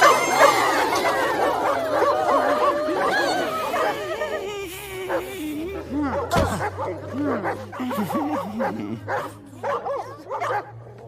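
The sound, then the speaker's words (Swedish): Several dogs barking and yipping, many overlapping barks crowded together at first, then thinning into separate sharp barks and yelps in the second half. “Er uppgift är att få tyst på de där hundarna ikväll.”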